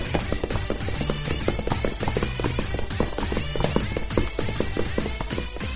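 Running footsteps of characters fleeing a monster in a radio drama sound effect, a rapid, loud, steady patter of many hurried steps continuing throughout.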